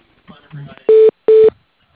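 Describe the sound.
Two short, even telephone tones sound as a call is transferred to voicemail, each a steady buzzy beep separated by a brief gap, following a moment of faint, indistinct sound.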